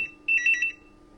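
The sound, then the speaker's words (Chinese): A telephone rings with a short burst of bright electronic trilling, moderately loud and alone, over a steady low hum. “小兵爸，你赶快来接电话。”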